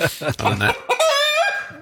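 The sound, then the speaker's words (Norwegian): A hen clucks in a few quick, clipped bursts, then gives a longer, higher, tonal call near the end. The calls are loud and stand alone. “Du kan ikke vinne noe hvis du hører høna”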